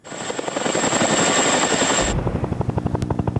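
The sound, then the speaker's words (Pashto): NATO helicopter flying over Afghanistan: a dense, steady rotor roar with a thin high whine, which gives way to a rhythmic, fast thumping of blades that continues to the end. “لا هم د افغانستان په فضا د ناټو هلیکوپټر ګرځي.”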